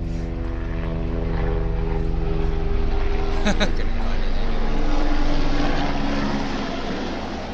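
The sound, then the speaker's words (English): A helicopter flying overhead produces a steady droning engine and rotor hum that swells gradually, peaks, and then eases off toward the end. “Anyway, that was the helicopter.”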